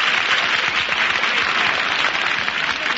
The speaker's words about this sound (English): Give the man from Pittsburgh a nice round of